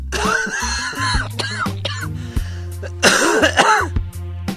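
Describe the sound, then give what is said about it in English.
A man coughs in several harsh, raspy bursts separated by short pauses, ending in a louder, longer fit of coughing; no speech is heard. “just listen to this man's cough.”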